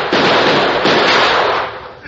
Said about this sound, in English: Watch out! He's pulled a gun! So have I!